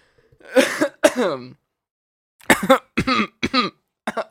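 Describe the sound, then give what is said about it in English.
Throat clearing from someone with something stuck in their throat: two rough, drawn-out clears, a pause, then a quicker run of four shorter grunting clears, fairly loud and without talk. “Sorry, I got something stuck in my throat.”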